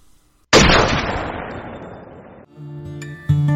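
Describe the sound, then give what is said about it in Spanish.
A firing squad fires one sharp, simultaneous volley of rifle shots, a loud crack whose rolling tail fades over about two seconds, followed by a further short burst near the end. “¡Pelotón! ¡Apunten! ¡Fuego!”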